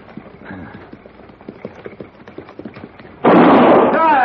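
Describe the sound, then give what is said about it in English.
A gunshot is fired into the air in a western drama scene. Voices talk over soft rhythmic knocks before a single loud, sharp blast erupts and roars on to the end. “Hold it! Well, I mean, what is this? If I fire again, Morgan, it won't be in the air.”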